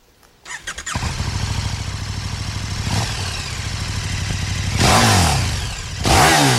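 A motorcycle engine, ridden in summer rain, starts up into a loud steady drone with a brief rev, then two harsher, louder bursts of throttle come near the end.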